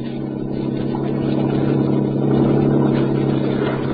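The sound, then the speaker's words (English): Recorded sound effect of a yacht's engine played from a disc with reduced treble: a loud, steady, low engine drone that swells slightly in the middle and runs alone without pause. “I got a record for the yacht that doesn't have so many highs.”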